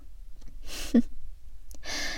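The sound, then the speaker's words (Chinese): Heavy breaths drawn through the mouth and nose, fairly quiet: a few gasping inhales and exhales with a short voiced catch between them. “这样大口大口的喘气，还真有意思呢。”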